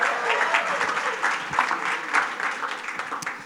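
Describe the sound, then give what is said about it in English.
An audience applauds as a speaker comes up at an evening event. Dense, even clapping runs throughout at a moderately loud level, with small swells and no clear pauses. “Y'all give him a big hand as he comes up this evening.”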